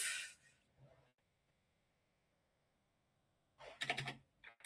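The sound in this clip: Typing on a computer keyboard comes as a short burst of keystrokes at the start and another quick run of key clatter near the end, both faint, with near silence between.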